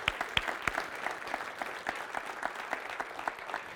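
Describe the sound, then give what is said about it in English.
Audience clapping at a members' gathering, faint, with several sharp individual claps standing out at the start before settling into a quieter, uneven patter of many hands. “And let's just give her a big round of applause for her, right?”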